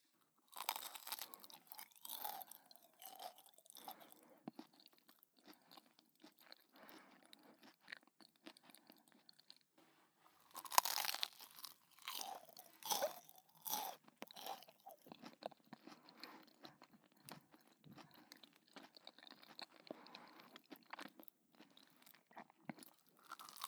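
Crunchy chewing of a freshly fried croquette: many crisp bites and chews in irregular bursts, fairly faint, with no talking.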